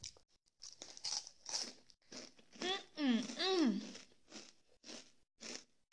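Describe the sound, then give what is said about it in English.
Crunching on a snack: a few crisp, crackling bursts spread across the stretch, with a brief hummed or vocal sound in the middle. “So basically, my brother got me a snack.”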